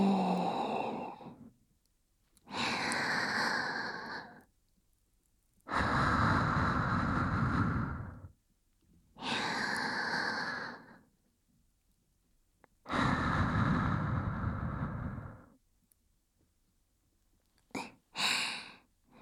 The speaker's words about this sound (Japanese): リラックスした方がアロマの効果もありますよ。はい、吸って吐いて、